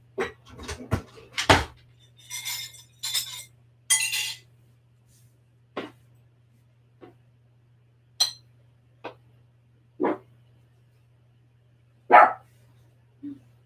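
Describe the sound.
A dog barking in a home kitchen during cooking: many sharp barks, bunched in quick bursts at first, then spaced out singly.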